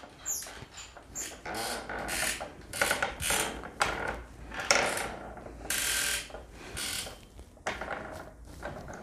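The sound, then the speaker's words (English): Repeated squeaking from a loose screw low down on a creaking fixture: many short, bright squeals in an uneven rhythm, some sharper and louder, with no talking. “See how it's starting to squeak back again? That's a screw. I think it's coming from down the bottom.”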